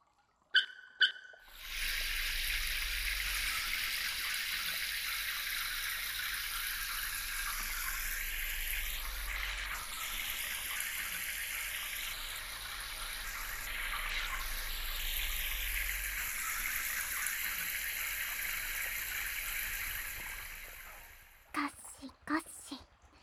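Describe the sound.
Water runs from a tap or shower while one person washes another, a steady rushing flow that starts after a short pause and continues for almost twenty seconds before cutting off.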